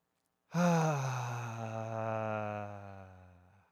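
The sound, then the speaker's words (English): A group breathing in together, heard as one long, steady voiced sigh lasting about three seconds. It swells quickly and then fades slowly, with no talk. “take one breath in together to invite in the spirit of the moment”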